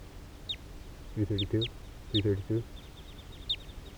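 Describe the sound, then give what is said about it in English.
Wild ducks, a male and a female on the ground, give two quick bursts of three nasal quacks each, with thin, high peeping calls scattered between them. “Some of the wild birds are coming down here near 3:32. There's a wild male sitting right here on the ground next to 3:32 with a female right behind.”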